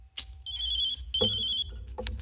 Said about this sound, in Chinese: 电话。